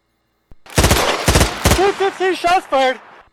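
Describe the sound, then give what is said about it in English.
Gunshot sound effect: a few sharp, loud cracking bursts in quick succession, followed by a voice calling out in short pitched phrases. “that soundbite didn't make any sense for the context. Man, what was it? It was the shots fired one.”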